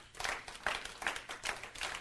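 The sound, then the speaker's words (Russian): Faint clapping from audience members during a Russian-language sermon, heard as a few sharp, evenly spaced bursts of hand claps over low background noise. “Некоторые из вас хлопают и ничего не понимают.”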